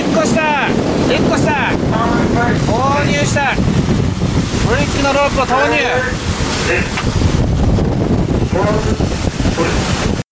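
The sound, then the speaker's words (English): Wind roars across the microphone aboard a small boat at sea whose crew is trying to foul a whaling ship's propellers with a rope. A constant rushing buffet runs throughout, and several voices shout over it. “Here's some sound from a video in which one of the small boat teams almost succeeds in falling the Yushin Maru number 3's propellers with a prop falling rope.”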